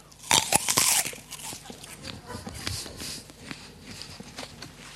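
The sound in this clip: A crisp, loud bite into an apple cracks out first, followed by a run of softer, irregular chewing crunches that gradually quiet down.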